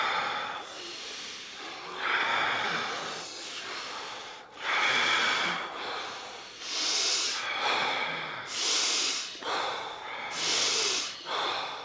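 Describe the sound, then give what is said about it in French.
Forceful power breathing: deep, rhythmic inhales and exhales through the nose and mouth, each breath a loud, hissing rush of air. Many strong breaths follow one another in an even cycle, with no talking over them. “je trouve super intéressante la respiration Wim Hof. Elle est, elle est, très simple. T'inspires. Power breathing. D'expire. Inspire. Expire. Inspire.”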